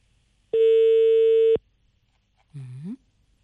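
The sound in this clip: A ringing tone plays on an unanswered call to a traffic police office. It is a single loud, steady one-second beep, followed after a pause by a short voice.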